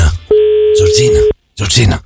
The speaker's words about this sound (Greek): έχει βάλει τα δαχτυλάκια του πάνω στο καντράν του τηλεφώνου για να καλέσει τους κληροθέντες